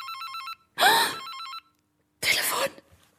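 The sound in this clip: A telephone bell ringing in a home on a Saturday evening: a short, bright electronic trill that stops, followed by two loud, breathy bursts of sound.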